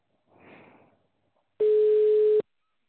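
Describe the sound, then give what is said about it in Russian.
The ringback tone of an outgoing phone call to a property buyer sounds as one steady, loud, mid-pitched tone lasting under a second, after a faint soft rustle. “Вам звонок с Яндекс недвижимости. Начинаем звонок покупателю.”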